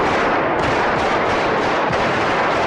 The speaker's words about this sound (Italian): Avete sentito delle esplosioni? Questo era il sonoro del tentato golpe del colonnello Antonio Tejero